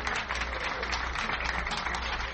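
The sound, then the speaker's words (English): Audience applause at a live music show in Buffalo: dense, steady clapping throughout, moderately loud and unbroken. “Let's give him a nice round of applause.”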